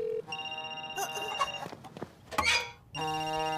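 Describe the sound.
A mobile phone rings with a bright electronic ringtone of steady melodic notes that shift in pitch. It breaks off briefly near the end, then resumes, loud and alone.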